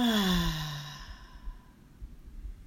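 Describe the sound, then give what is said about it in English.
A deep breath in and out during a guided breathing exercise, heard as one loud voiced sigh whose pitch falls. It then trails into quiet, breathy noise. “And our third and final breath together, breathe in and out.”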